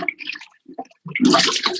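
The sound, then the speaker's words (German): A toilet flush pressed by a child: after a few short, softer sounds, a loud burst of rushing water surges up in the second half and keeps going to the end. “Er will immer selber spülen. Ah, cool, okay. Ja, drück mal drauf.”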